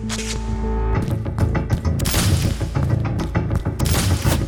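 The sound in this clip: Explosions and gunfire from heavy, high-grade ordnance in a battle: dense overlapping blasts and sharp rapid bursts over a deep, rumbling low end, loud and continuous throughout.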